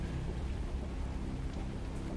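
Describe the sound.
Rain falling at dawn, with the sea nearby, makes a soft, continuous hiss. It is a faint, even wash of noise with a low murmur underneath, and there are no distinct drops or breaks.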